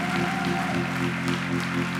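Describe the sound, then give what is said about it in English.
A church audience claps their hands in praise, a dense, steady wash of applause that continues evenly throughout, with a sustained musical tone held beneath it. “Give the Lord a hand clap of praise. Thank you, Tom. Give Tom a hand clap.”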